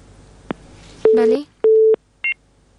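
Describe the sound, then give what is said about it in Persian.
A telephone busy tone follows a disconnected call: two short, flat, mid-pitched beeps separated by a brief pause, with small blips before and after, and a snatch of voice overlapping the first beep. “بلی خب تماس اینا قطع شده، باز هم تماس داریم”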